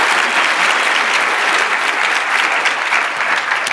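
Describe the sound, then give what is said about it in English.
Audience applause for a guest speaker at a question-and-answer event: dense, steady clapping that stays loud and even throughout without breaking off. “Please give it up for Margo Downs.”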